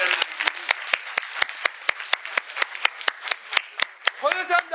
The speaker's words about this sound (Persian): به من چیز دادن که از آقای دهدشتی و آقای باقری تشکر ویژه بکنیم بابت بستنی. یه دست به افتخارشون بزنیم.